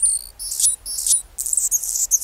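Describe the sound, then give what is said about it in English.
A male Anna's hummingbird sings on a chilly February morning near Seattle, a very high, thin, scratchy buzzing song broken into several short, rapid bursts, loud and alone. “And not just any bird, it's a hummingbird. A male Anna's hummingbird, whose throat and crown flash iridescent rose.”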